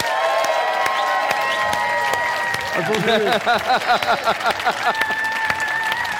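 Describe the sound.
Applause and cheering from a live show audience welcoming a veteran politician, loud continuous clapping with voices talking over it throughout.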